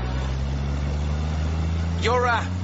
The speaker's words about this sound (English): Hold on to your hat. I'm going to overtake this white van.